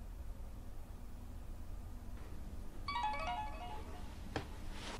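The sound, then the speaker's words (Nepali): A mobile phone ringtone plays a brief melodic burst of bright tones over steady low background noise, stopping after about a second. “माफ कीजिएगा, मेरी wife का phone है”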